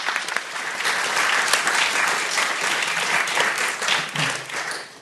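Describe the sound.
Audience applause welcomes a speaker to the stage at a mental health charity event. The clapping is dense and steady for about five seconds and eases slightly at the end.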